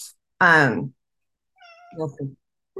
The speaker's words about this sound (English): That's our cat. Cat's weighing in.